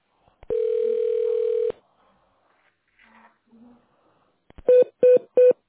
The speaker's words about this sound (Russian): Пожалуйста, наберите добавочный номер сотрудника или оставайтесь на линии.